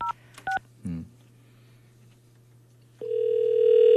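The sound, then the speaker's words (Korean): A telephone call being placed, with a few short dialing beeps followed by a steady, continuous ringing tone that starts and holds loud at the end. “자, 신호 갑니다.”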